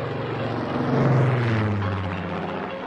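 Airplane engine drone as the aircraft climbs in flight, a sustained propeller-like hum with a buzzing, throbbing texture that swells in the middle and then eases slightly.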